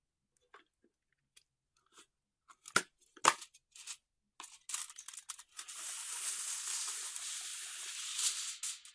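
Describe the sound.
Aluminium foil is torn and spread on a floor: scattered crinkles and taps build into a steady, rough crackling rustle that lasts several seconds, all fairly faint.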